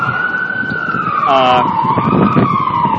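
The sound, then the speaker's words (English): A fire truck's siren wails loudly in a single sustained tone that sweeps gently down and back up, riding over a low, busy rumble. “What equipment do you use to record? Apparently, sirens, jackhammers, fire trucks.”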